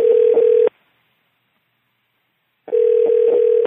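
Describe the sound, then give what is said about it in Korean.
Ringback tone of an outgoing telephone call: two steady mid-pitched tone bursts, the first under a second long, the second about one second, separated by roughly two seconds of silence. “전화 한번 해보죠 그러면”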